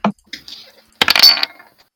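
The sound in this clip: Dice rolled for a tabletop role-playing game: a sharp click, a few faint ticks, then a dense burst of bright clattering that settles quickly.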